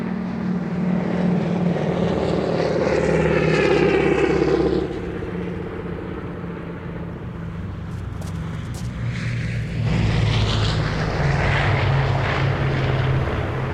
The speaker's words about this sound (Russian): Самолет летит над казармами.